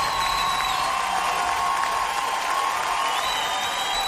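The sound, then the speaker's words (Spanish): A Havana audience applauds and cheers in a continuous, even roar of clapping that holds steady at a moderate level throughout. “Muchas gracias, La Habana. Muchas gracias. Aplausos para ustedes.”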